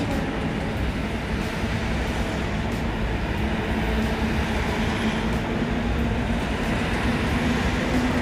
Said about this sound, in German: wir fahren gerade sehr viel von der Fähre runter oder auch rauf.